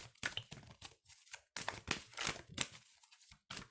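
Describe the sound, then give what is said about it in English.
A deck of cards for a past-lives reading is shaken to make a card fall out, giving papery rattling and crinkling in several irregular bursts separated by short pauses, with no voices. “I'm trying to let the card fall out, but it won't. So I think I have to pick it up.”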